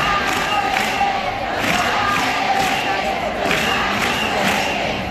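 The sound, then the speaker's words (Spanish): Protesters chant in a steady, pulsing rhythm against the privatization of three childcare centres in the capital. The crowd voices are loud and continuous. “En el punto de mira, esos tres centros de atención a la infancia en la capital, conocidos como CAI, que a partir de este año los gestionarán empresas privadas. Así lo escuchábamos en los manifestantes.”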